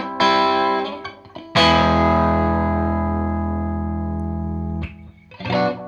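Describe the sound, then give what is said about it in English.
An electric guitar plays through a slightly distorting amp: a few short notes, then a chord that rings out for about three seconds with a gritty edge before more picking starts. “I put the amp so that it slightly distorts. Not much on single notes, but when playing two or three notes, you get some clear distortion.”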